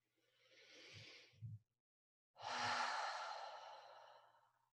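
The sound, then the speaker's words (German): A person breathes deeply in a quiet setting. A long, airy breath comes first, then after a brief pause a louder, fuller breath that trails off like a sigh. “Atme tief ein”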